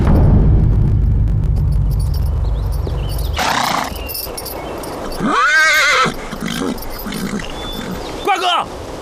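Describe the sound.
Horses of an approaching army neigh: two loud, wavering whinnies, a longer one followed later by a short one, rise out of a busy, rumbling background.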